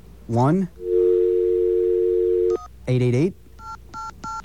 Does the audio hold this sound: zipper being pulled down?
no